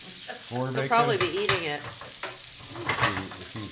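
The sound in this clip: Bacon sizzles in a frying pan, giving a steady crackling hiss with a few louder bursts throughout.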